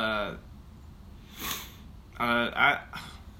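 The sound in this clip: A single heavy, breathy exhale, short and fairly soft, with talking just before and after it.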